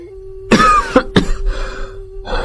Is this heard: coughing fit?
yes